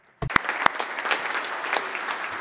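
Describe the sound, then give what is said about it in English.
Applause for the interpreters at a forum starts abruptly with a few sharp, loud claps and quickly swells into steady, moderately loud clapping from the crowd. “a round of applause for the interpreters who help us communicate with each other”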